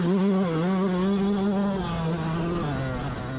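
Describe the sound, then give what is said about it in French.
A motocross motorcycle accelerates along a dirt straight. Its engine makes a loud, sustained buzzing drone that drops in pitch in a couple of steps toward the end. “Puis je suis face à une ligne droite, donc j'accélère. Je reviens sur l'allée, hop, une bosse.”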